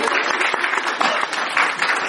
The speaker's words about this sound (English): Everyone round of applause.